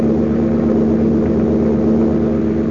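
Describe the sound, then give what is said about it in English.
An airplane in flight gives off a steady engine drone, a continuous low hum with one strong sustained tone that runs unbroken from start to finish, with no voices. “it seems to me the plane is heading west.”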